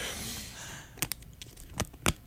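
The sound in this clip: An aluminium-sealed yogurt cup being torn open: a stiff foil lid that is hard to open gives a few sharp, crisp crinkling rips over a faint, soft background.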